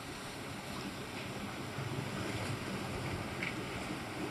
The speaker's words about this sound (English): And as you hear the waves crashing and moving, let that wash away the day so far.